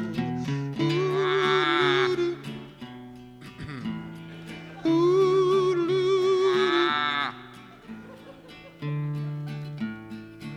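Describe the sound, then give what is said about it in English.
A human voice imitates a sick calf bawling, producing a few long, loud, wavering moos that rise and sag in pitch, with the first two the longest and strongest. “You were over there bawling like a sick calf. Well, there's a sick calf in the portrait.”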